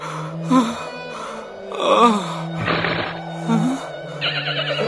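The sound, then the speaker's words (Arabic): A horse in a desert neighs in a few loud, drawn-out whinnies with a wavering, shaky pitch, separated by brief lulls. “ما بك أيها الحصان؟ أتحاججني أم توافقني الرأي؟”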